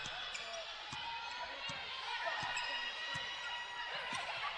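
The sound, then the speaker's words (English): A basketball is dribbled on a court during a game. The low bounces come in a steady, regular run over a constant noisy background. “going to dribble up near the top.”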